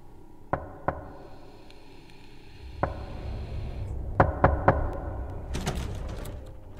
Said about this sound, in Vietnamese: Thỉnh thoảng đâu đó ở bên ngoài kia, tiếng gõ cửa 3 nhịp 1 lại vang lên.